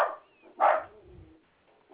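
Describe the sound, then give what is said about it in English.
A zealous puppy dog barks in a few short bursts. One loud, sharp bark in the middle stands out between fainter yips at the start and the end. “I said I had a zealous puppy dog wanting to go bite somebody.”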